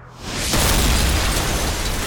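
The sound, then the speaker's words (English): A torpedo exploding amidships on a ship: a sudden loud blast that swells into a heavy, sustained roaring rumble and stays loud to the end, with no voices. “A torpedo amidships, causing more fires.”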